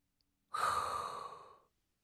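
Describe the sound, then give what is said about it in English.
One deep breath is drawn in, a loud, airy inhale lasting just over a second, with quiet before and after it. “it is time to inhale a hot breath”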